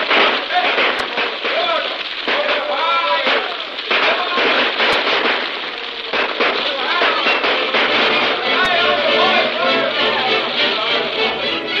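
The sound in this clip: Rifle gunfire crackles in many rapid, sharp shots during a firefight among buildings, the volleys continuous and loud while voices shout over them.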